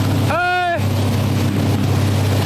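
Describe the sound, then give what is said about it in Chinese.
Steady roar of a motorboat speeding across the sea off an island near Wenzhou. Engine and rushing wind noise stay loud and unbroken throughout. “摩托艇飞驰在海面上，浪花四溅，让记者感受着驰骋大海的乐趣。”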